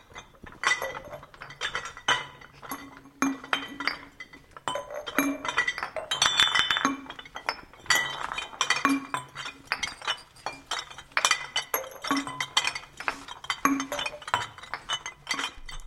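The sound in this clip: Empty glass bottles of different sizes clink and knock against each other as they are sorted, with many sharp, bright glassy taps and rattles coming in quick, irregular succession at a steady moderate level, with no talking.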